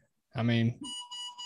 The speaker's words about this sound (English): hold on 1 second, guys. My baby's beeping a bunch.